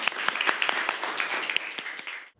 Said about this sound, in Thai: ปรบมือ